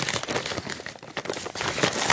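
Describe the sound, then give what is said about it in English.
A paper bag wrapped around jelly beans crinkles and rustles in a dense, continuous stream of crackly noise that stays at a steady level, with no talking. “I'm going to urge you to get yourself a bag of jelly beans, like I have here, wrapped paper bag with my name on it, and in here,”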